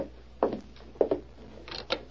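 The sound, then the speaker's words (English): A wooden door being opened in an old Western setting, a few dull clunks and rattles of the latch and frame, quiet over a low steady hum. “Sure hope nothing goes wrong. Be quiet. He's dismounted. I'll open the door.”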